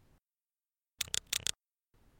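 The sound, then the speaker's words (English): Cassette tape recorder being rewound, heard as a half-second burst of rapid, sharp mechanical clicks and clatter between near-silent stretches, faint overall. “Can you rewind that, see if it's there? Yeah, give me a second. I haven't done this before.”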